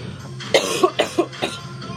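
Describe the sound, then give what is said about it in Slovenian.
Coughing comes as a quick run of several short, sharp coughs over a faint background. “vidiš, smo skupaj tudi v kašlju.”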